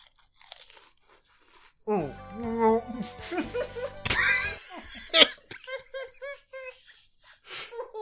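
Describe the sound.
Loud, brittle crunching comes from four full-size club crackers being bitten and chewed at once, in irregular bursts mixed with laughter and giggling.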